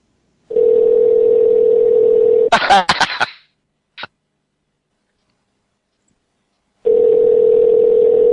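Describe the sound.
Telephone dial tone followed by a quick burst of keypad tones and a click, then silence before a steady ringing tone starts for a call that goes unanswered.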